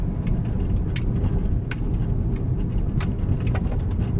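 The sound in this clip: A car drives toward a crash site, giving a steady, loud rumble with a hiss of road or rain noise that holds evenly throughout, with no clear speech.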